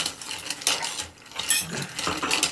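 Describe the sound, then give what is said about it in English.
Ice clinks and rattles against glass as a gin, sweet vermouth and Fernet Branca cocktail is stirred. Many quick, bright taps come in uneven bursts, louder and softer in turns. “Hey, you caught the ice. Just throw it in. Okay. All right, give it a stir for us.”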